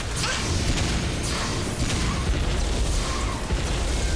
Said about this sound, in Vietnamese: Laser xanh, bắn đi.